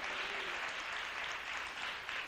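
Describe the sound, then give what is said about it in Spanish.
A church audience applauding during a Spanish-language worship service: dense, continuous clapping from many hands, steady and sustained throughout without a break. “Dele un aplauso al Rey, ya que se lo está dando, déselo al Señor con todo el corazón.”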